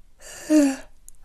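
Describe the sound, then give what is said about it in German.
A single yawn during vocal warm-up exercises that stretch the mouth and face, breathy and moderately loud, swelling to a brief voiced tone in the middle before trailing off, with no talk over it. “Das Gähnen übrigens, wenn das kommt, ist ein sehr, sehr gutes Zeichen und Gähnen ist sehr gut für die Stimme.”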